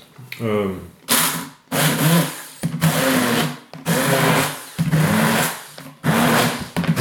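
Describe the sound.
A blender pureeing doner kebab runs in six loud whirring bursts separated by short pauses, after a brief voice at the start.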